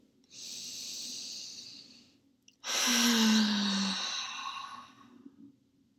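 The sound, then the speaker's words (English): One deep breath: a steady hissing inhale, a brief pause, then a longer, louder exhale that carries a low, voiced sigh before fading. “So let's take one more deep breath together.”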